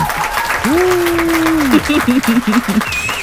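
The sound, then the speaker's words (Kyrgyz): Audience applause with loud whistling: one long whistle note sweeps up and holds steady, then a quick run of short warbling whistle notes follows, all over continuous clapping. “Ышкырган. Ышкырбай эле жөн эле кол чаба алычы.”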